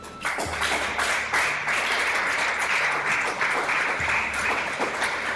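An audience applauds and acclaims during a church service, forming a steady, dense, hissing wash of many hands with no clear single claps. The sound stays even and unbroken for the whole stretch.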